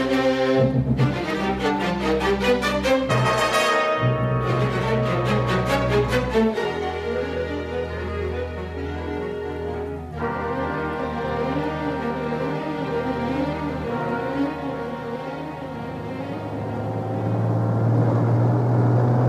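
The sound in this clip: A car engine drives off on the way home, a harmonic drone with shifting pitch for about nineteen seconds. It briefly drops out near four seconds and swells louder toward the end.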